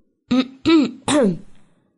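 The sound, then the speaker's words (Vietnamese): Three voiced, dry throat-clearing coughs in quick succession, each short and fairly loud, the last slightly longer and trailing off, alone against silence. “Đúng lúc này Hạ Chí Nguyên có chút không hiểu phong tình, ho khan một tiếng.”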